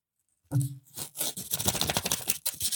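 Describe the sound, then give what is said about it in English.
A golden envelope is torn open with quick papery rips and scrapes. A short rustle comes first, then a busier stretch of tearing. “I have the golden envelope here, Duncan, which I'm just going to open. Give me a second.”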